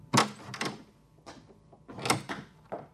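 Door sounds as someone gets up and heads for the door: a few short, clattering thumps and knocks in an uneven rhythm, fairly faint, with no talk.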